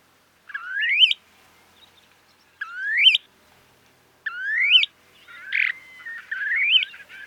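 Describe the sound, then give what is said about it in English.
A male snowy plover calls to attract mates. Three loud, rising, whistled chirps are spaced apart, followed by a few shorter, fainter notes. “Is the sound of a snowy plover. The males make the sounds when they're attracting mates”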